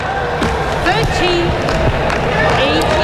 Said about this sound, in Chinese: 运球。